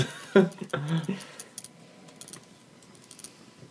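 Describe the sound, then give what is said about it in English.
Pen clicking: after a short burst of voice, many small, sharp, faint clicks follow at an irregular pace. “Sorry. It's getting picked up by the mic. See, I can click a pen without having a clicker.”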